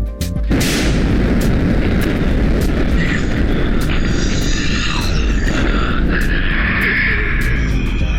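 A bomb exploding in a video game sets off a sudden loud boom, followed by a heavy, continuous rumble that lasts several seconds.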